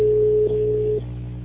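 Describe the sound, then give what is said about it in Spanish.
A voicemail tone before recording a message: one steady, clear electronic beep holding a single pitch for about a second, then a low, constant line hum. “Graba el mensaje después del tono.”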